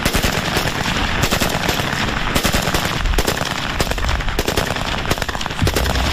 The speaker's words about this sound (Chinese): 火力输出方面，全自动的五六式冲锋枪优势显而易见